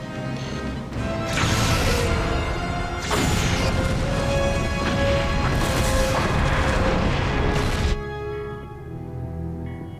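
Sci-fi weapon fire blasts an Earth space station with 30 to 40 people aboard: loud, roaring booms and crashing bursts surge for about seven seconds, with several fresh blasts cutting in before the roar drops away.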